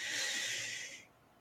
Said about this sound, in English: So we're going to start by taking three big deep breaths. So take a nice big deep breath in